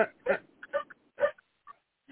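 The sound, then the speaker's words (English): A dog barks in several short, sharp bursts separated by brief silences. The barks are fairly loud, and no talk runs over them. “oh, good Lord, that dog.”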